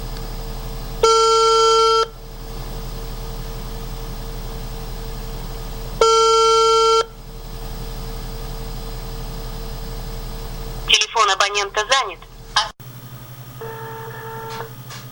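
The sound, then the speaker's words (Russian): Ringback tone of an outgoing telephone call being dialed: two steady, buzzing tones about a second long, spaced several seconds apart, then a brief burst of warbling chirps and a fainter closing tone, with no talking. “Ну, сейчас мы попробуем набрать.”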